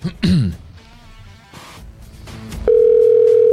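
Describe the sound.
Telephone dial tone as a host rings a listener to chat, a steady, unbroken tone filling the final second, preceded by a throat clearing and a few brief, faint sounds.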